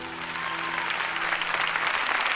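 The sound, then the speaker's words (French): Applause rings out as a dense, steady wash of clapping that holds at an even level throughout, with a faint low hum underneath that fades out near the end. “Il va y avoir des applaudissements.”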